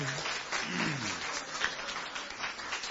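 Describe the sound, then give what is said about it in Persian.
Audience applause breaks out at a talk, a dense, steady wash of many hands clapping at moderate loudness, with a voice briefly heard over it near the start. “تشویقش بکنیم”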